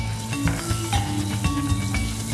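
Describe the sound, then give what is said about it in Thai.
Red curry paste stir-frying in oil in a pot gives a steady, loud sizzle broken by repeated scraping strokes of stirring, with no talk over it. “ใส่พริกแกงเลย เพื่อจะผัดนะครับ”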